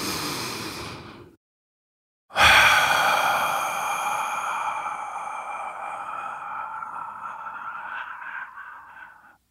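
Someone takes a deep breath: a short breathy rush, a brief silence, then a long, fading breathy sound of about seven seconds that blends with a sustained ringing tone.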